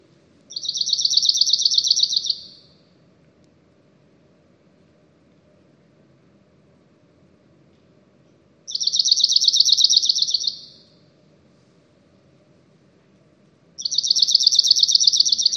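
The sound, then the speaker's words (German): A cirl bunting sings its simple song, three separate phrases of a dry, high, buzzing trill, each lasting about two seconds and divided by long silences. “Schauen wir uns jetzt am Beispiel der Zaunammer an, Hauptverbreitungsgebiet Südeuropa, Nordafrika und Kleinasien. Die hat einen relativ einfachen Gesang. Hören wir uns das zunächst einmal an.”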